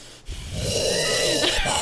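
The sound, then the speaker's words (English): Heavy mouth breathing straight into a microphone: one long, rough, wheezy breath that starts abruptly and holds steady and fairly loud to the end, with no talk over it. “What are you? You're mouth breathing.”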